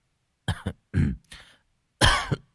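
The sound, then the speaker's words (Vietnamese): A young man coughs and clears his throat several times in short, throaty bursts separated by brief pauses, with no other sound around them. “Người thanh niên húng hắng ho vài cái rồi ngắt lời:”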